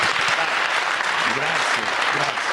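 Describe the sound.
Studio audience applause on a sports talk show, accompanying a handshake: dense, loud, continuous clapping with a voice faintly audible underneath.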